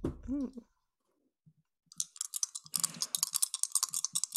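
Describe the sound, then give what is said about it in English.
Typing on a computer keyboard: after a brief voice at the start and a short pause, many quick, light clicks tap out in an irregular, busy rhythm until the end. “I just had to type into my character sheet box in the conditions box”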